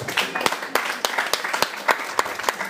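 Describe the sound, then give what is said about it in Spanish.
Audience applause at a comic convention trivia event: dense, steady clapping fills the whole clip, with a few sharper individual claps punching out above the texture. “¡Un aplauso!”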